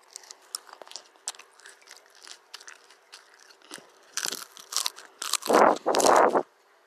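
Crunchy lettuce being chewed, starting with quiet, irregular crunches that grow louder toward the end, finishing with a few heavy, wet bites.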